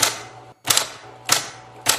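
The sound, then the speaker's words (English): A typewriter types in four loud, sharp clacks, evenly spaced about two-thirds of a second apart, with near silence between strikes. “Love the typewriter.”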